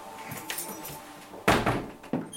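Keys jangling and a door being unlocked at the upstairs synagogue in Ireland, closed since the 1960s: soft metallic clinks and rattles, then a few heavier thunks and knocks from the door toward the end.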